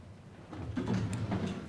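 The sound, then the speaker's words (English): A desk drawer slides open with a faint, brief scraping rumble that builds over about a second, followed by a few soft knocks, and no voices. “opens his desk drawer”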